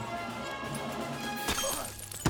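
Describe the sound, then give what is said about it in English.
Glass shatters as a rum bottle is smashed over a crewman's head at a dockside: a sharp crash over a steady background bed, with another hard hit at the end. “drains a bottle of rum and casually smashes it on a crewman's head”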